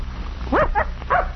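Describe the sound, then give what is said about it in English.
Hound puppy yipping: three short, high, whiny yelps in quick succession, moderately loud over a low steady background hum. “Say, this dog don't look big enough to travel with a pack. He's still a pup.”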